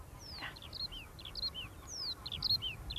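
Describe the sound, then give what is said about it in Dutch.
A Eurasian skylark sings in spring, a rapid run of high chirps and short trills, faint over a low background rumble. “Hey, hoor je de veldleverik? Kijk, die heeft ook al voorjaar in zijn bol, de veldleverik.”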